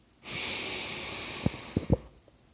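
A calming breath drawn in together by a group before prayer: a long, steady, airy hiss of inhalation lasting under two seconds, followed by a few brief, soft low thumps.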